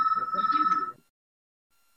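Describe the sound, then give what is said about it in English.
A phone's ringtone goes off as an online gathering is wrapping up: a bright, pulsing electronic tone that rings for about a second, then cuts to silence, with a brief low sound at the very end. “Oh, someone's phone is going off.”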